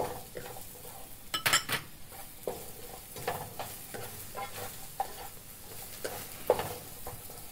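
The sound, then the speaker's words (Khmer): Carrots going into a vegetable stir-fry in a pan, with steady sizzling and frying under scraping stirs and clinks of a utensil against the pan; a few louder scrapes stand out. “ហើយឥឡូវនេះយើងដាក់ការ៉ុតចូល”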